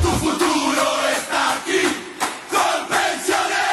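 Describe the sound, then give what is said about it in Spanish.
A stadium crowd cheers at a football match, a dense, continuous roar that keeps surging in swells, with no clear talk over it. “La tribuna revienta de la dicha porque para ganar este partido estamos todos en la cancha.”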